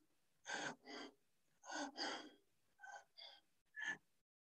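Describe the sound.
A man's voice imitates a man sinking in mire with seven sharp, breathy gasps in uneven pairs and singles, each brief and hoarse, with short silences between them.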